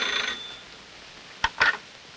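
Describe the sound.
A telephone rings in an aunt's home, heard as two short bright bursts, the second a little longer, after a faint hissy opening.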